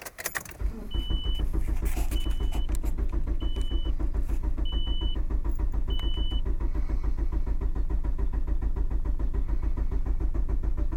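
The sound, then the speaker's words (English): A car engine cranking and trying to turn over without catching, a steady, rapid, rhythmic churning that runs throughout, with five short high warning beeps at regular intervals. “trying to start my car.”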